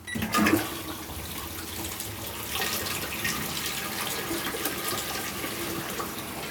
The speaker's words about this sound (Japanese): じゃあ流します。